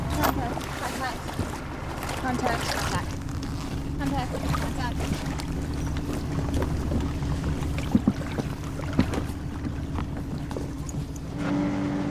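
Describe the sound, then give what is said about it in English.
A research boat carrying researchers speeds over the water. The engine drones steadily under rushing wind noise for the whole stretch, broken by a couple of sharp knocks in the second half. “The researchers grip the perimeter rope as the boat speeds over the water.”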